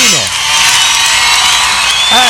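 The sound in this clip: Audience cheering at a live radio show: loud, continuous crowd noise with whoops and shouts, and some clapping underneath.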